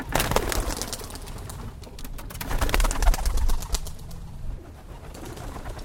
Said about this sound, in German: flattert eine Brieftaube zurück in ihren Schlag im englischen Ipswich.